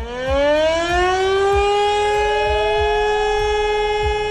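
A civil defense warning siren sounds for a national warning day: a loud, steady wail whose tone climbs at the start, then holds high and level throughout.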